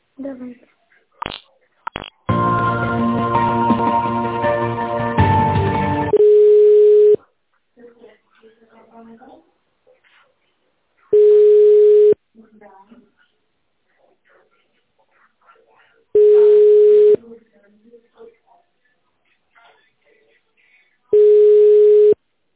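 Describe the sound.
Telephone line sounds while a call is transferred to a specialist: short clicks and a burst of tonal noise, then four steady tone beeps about five seconds apart with faint sounds between.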